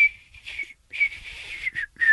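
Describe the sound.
Someone whistles a song: a high, clear tune in a few short phrases separated by brief pauses, bright and fairly loud, with no talking over it.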